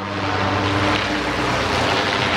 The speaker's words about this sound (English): So that's actually what it sounds like when it's coming down. And, you know, you can see it off the freeway there when you drive by. It's the blimp, right?